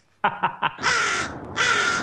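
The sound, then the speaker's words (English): A crow caws five times: three short, sharp calls in quick succession, then two longer, harsher caws with a brief gap between them, loud and alone. “That's a freaking crow.”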